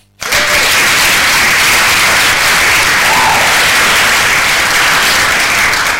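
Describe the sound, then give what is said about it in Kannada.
Loud, dense applause from many clapping hands, offered as congratulations to listeners, holds steady and unbroken for several seconds with no talk over it. “Akashvani Bhadravati Shivamogga ಕಡೆಯಿಂದ ಒಂದು ಚಪ್ಪಾಳೆ ಬರಲಿಲ್ಲ ಅಂದ್ರೆ ಚೆನ್ನಾಗಿರುತ್ತಾ, ನಮ್ಮ ಕಡೆಯಿಂದ ಚಪ್ಪಾಳೆ ಕಳಿಸ್ತಾ ಇದ್ದೀವಿ, ನೀವೆಲ್ಲರೂ ಸ್ವೀಕಾರ ಮಾಡಿ.”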